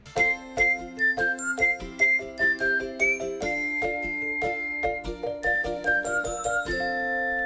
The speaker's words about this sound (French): un vélo qui passe avec un petit bruit sympa dans le casque